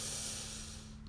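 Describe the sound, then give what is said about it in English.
A single deep breath taken during a guided breathing exercise, a soft airy rush that starts at its fullest and gradually fades, heard alone. “Breathe in and out. And one last breath in, breathe in”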